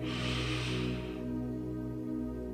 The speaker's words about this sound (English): Deep breath in and release.